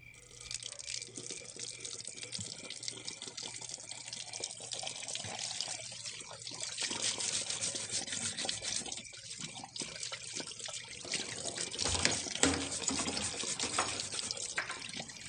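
Water runs from a tap while a pet is being washed, a faint, steady trickle and splash that continues throughout and swells slightly toward the end.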